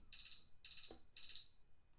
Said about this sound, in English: The timer was up, I don't get to say anymore.